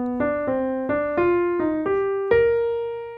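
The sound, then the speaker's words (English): An ascending arpeggio with enclosures around the notes C and E flat: seven distinct, ringing notes that step upward in pitch at a moderate, even pace, each decaying slightly before the next, the last sustaining and fading alone. “Okay, and after placing the enclosure around these two notes, I will then proceed with ascending arpeggio motion. So it's going to sound like this.”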